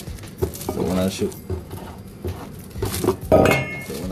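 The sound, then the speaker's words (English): Dishes and cutlery clink and scrape as an omelet is plated. Several sharp metallic chinks and clatters come in uneven bursts under ongoing talk. “But I want y'all to be with me right now for the plating of this omelet.”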